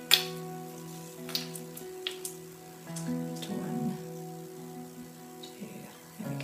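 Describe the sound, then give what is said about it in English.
Water poured into an essential oil diffuser: faint trickling and a few small taps and knocks over a steady low electrical hum. “first off, I'm going to add some water to my diffuser. There we go”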